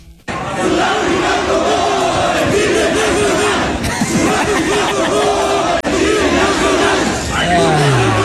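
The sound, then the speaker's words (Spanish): Football fans chant at Estadio Ciudad de México during a match against South Africa, a loud, massed, wavering chant of many voices that holds steady with rising and falling melodic phrases. “Esto se escuchó en el Estadio Ciudad de México, por el encuentro.”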